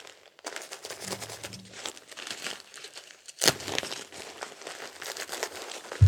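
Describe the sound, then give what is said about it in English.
Plastic crinkling of a disposable diaper being pulled up and its tapes fastened: a faint, steady papery rustle with one sharper, louder burst around the middle and a low thump right at the end. “Now let's pull the diaper up on you. Get you all taped in.”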